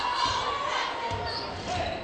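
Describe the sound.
A basketball being dribbled on a gym floor during a girls' high school game between Deer Lakes and Waynesburg. A few soft, low bounces sound under crowd noise and a commentator's voice.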